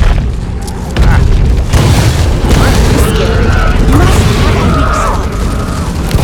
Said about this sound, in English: I'm using grenades. Done. I was legit. I just threw a bunch of grenades and I kept throwing them.